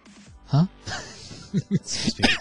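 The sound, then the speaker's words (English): Choking sputters and coughs from a man who has just inhaled his own saliva. A few short, rough bursts come with strained gasps between them. “Huh? I just inhaled my spit down my throat.”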